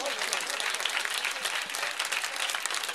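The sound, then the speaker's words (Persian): Audience clapping along to sung verses at a religious gathering, a dense, continuous wash of many hands clapping at a steady level throughout. “بابا دست بزن، این دست رو بیاد بالا، بیاد بالا، نترس شلا دست امام زمان میگیره، دست بیاد بالا، ماشاءالله.”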